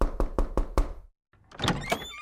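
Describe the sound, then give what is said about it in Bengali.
Five firm, evenly spaced knocks on a door, followed by a short pause and then softer, muffled stirring noises. “আজকের নকশাটাও বেশ জমে উঠছিল এমন সময় দরজায় টোকা পড়ল”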